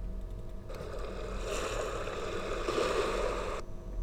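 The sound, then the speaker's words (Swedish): Waves lapping in a steady, gentle splashing wash that swells for a few seconds and then cuts off abruptly. “jag tror att det där är vågskvalp”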